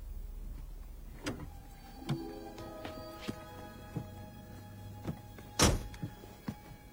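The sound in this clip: Car door and body thumps as a person gets into a car: a run of several dull clunks and knocks over a low steady rumble, with one louder thud near the end.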